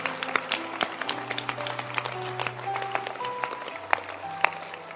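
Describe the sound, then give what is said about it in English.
Church audience clapping hands during a sermon: scattered sharp claps in a loose, irregular patter over sustained musical tones, moderately loud with a few louder hits. “Can you clap your hands?”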